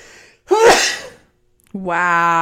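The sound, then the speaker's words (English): One loud, abrupt sneeze, after which a man's voice starts talking. “much like that sneeze interfered in what I was saying”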